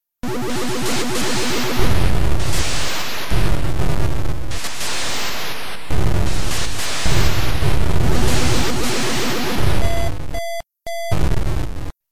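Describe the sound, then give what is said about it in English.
Sound effects from the 1980s arcade game Missile Command: a loud series of harsh, noisy explosion bursts, some with descending whistling tones, ending with short electronic beeps around a brief gap. “That's Missile Command.”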